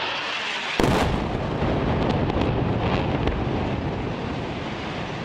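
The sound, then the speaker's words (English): A bombing explosion in a city: a sudden loud blast breaks in after a brief lull, then a dense, sustained roaring rumble with scattered faint crackles that continues to the end. “The opening audio is from a bombing in Gaza City, recorded on July 29th by Russia Today.”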